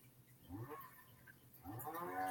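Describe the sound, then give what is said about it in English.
A cow moos in the background: two faint, drawn-out, low calls with a rich, tonal quality, the second longer and a little louder than the first. “Who has a cow mooing right now in the background? What is that? Sounds like a video game.”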